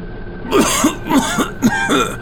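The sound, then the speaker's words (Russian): A man coughing hard: a rapid series of harsh, throaty, voiced bursts in close succession, loud and without any talk. “Он снова закашлялся столь сильно”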